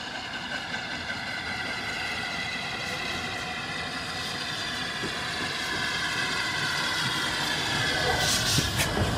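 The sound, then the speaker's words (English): The Flying Scotsman steam locomotive passes the signal box at Kidderminster Station with a steady, broad rumble and sustained droning tones, growing somewhat louder toward the end. “The train passes the signal box at Kidderminster Station.”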